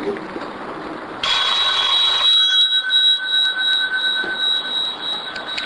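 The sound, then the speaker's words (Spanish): A telephone ringing with an incoming call on a radio quiz show, a steady electronic ring of high tones that starts suddenly and continues to the end over a busy background. “Vamos con la primera llamada.”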